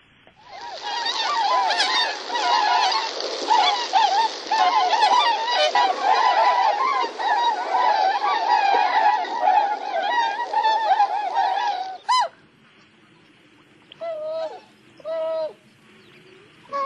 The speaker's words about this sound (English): let's take a listen, because I do have some of that audio as well. This is the tundra swan.